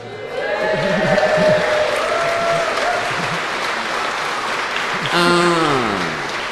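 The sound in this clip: Loud cheering and applause from the audience at a UK Linux event. Broad clapping rises quickly and carries through the whole stretch, with voices calling out above the crowd noise.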